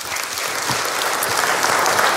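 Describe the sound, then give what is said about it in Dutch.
Audience applause in a radio studio, a brief burst of dense, even clapping that holds at a steady, fairly loud level from start to finish, with no talk. “Graag je applaus voor Jasper Poisson.”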